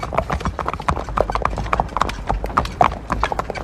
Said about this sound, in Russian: Дилижанс тяжело дернулся, сдвинулся. Лошадки побежали.